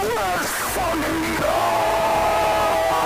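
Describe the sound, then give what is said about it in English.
A man's voice imitates players screaming "no" at a video game fighting tournament, with drawn-out wavering yells that dip in pitch and then settle into a long, sustained high cry. “you just hear like a variety of screams of no”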